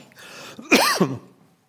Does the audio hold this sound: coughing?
yes